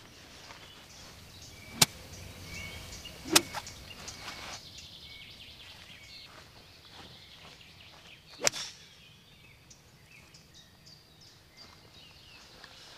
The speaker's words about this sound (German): Deswegen nehme ich lieber das Eisen 6, greife auch ein bisschen tiefer, spiele von hinten und dann hoffe ich mal, dass mein Plan auch aufgeht.